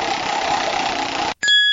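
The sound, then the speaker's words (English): A prize wheel spinning in a voice-assistant game gives a steady, dense whirring rush for over a second. It cuts off abruptly, and a bright, sustained chime rings out. “Alexa, open Wheel of Fun. Oh. I will spin the Wheel of Fun for you.”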